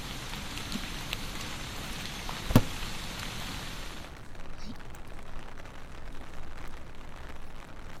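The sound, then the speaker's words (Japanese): Steady rain falls in a continuous dense hiss during a walk under a folding umbrella, with one sharp pop early on; the wash of drops thins slightly partway through. “雨、大変。”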